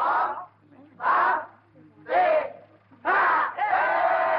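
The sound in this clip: A crowd at a boxing match in a 1974 drama film shouts and cheers as the referee counts over a fallen fighter. Four loud surges of massed voices are separated by short lulls.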